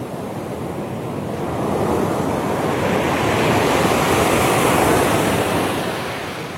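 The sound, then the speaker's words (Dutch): Surf breaks on a pebble beach in Suffolk, with no sandbanks offshore. A continuous, dense rushing roar swells slightly toward the middle and then eases, steady and unbroken, with no voices. “En het valt hem op dat de branding daar anders klinkt dan bij ons. Geen zandstrand, maar kiezels.”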